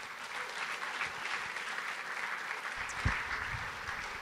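An audience at a church gathering applauds as a guest is welcomed to the stage. The clapping is steady and continuous, with a brief thump near the end.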